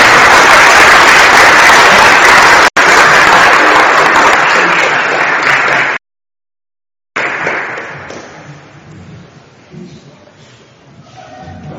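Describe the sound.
Dense, steady applause from a crowd, loud and continuous for about six seconds before cutting off abruptly, then resuming more faintly after a short silence.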